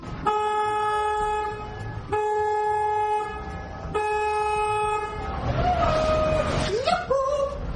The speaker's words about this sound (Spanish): Bueno, pues saca el cuerno y suena así.